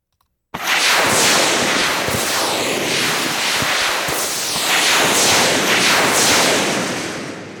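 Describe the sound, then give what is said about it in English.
Synthetic rocket whooshes from a particle emitter, played as a dense, loud, continuous hiss with scattered crackling pops. It starts abruptly after a short silence and runs steadily for about seven seconds before easing off slightly at the end. “Some of the effect I'm hearing, I think, is that the actual rockets are dying out a little bit before they pass in front of the mic.”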